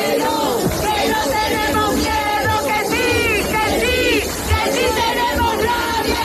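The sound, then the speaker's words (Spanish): Crowd at a housing protest encampment in Cádiz's Plaza del Palillero: a dense mass of many voices shouting and calling out over one another, loud and unbroken throughout. “Pues estos son los sonidos en Cádiz, donde también hay otra acampada.”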